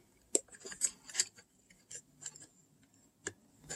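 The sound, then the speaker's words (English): Faint, crisp clicks as a keyed connector is fitted and snaps into place. Several short, sharp plastic ticks are scattered through a quiet background. “And there's a hefty click, so you know it's connected.”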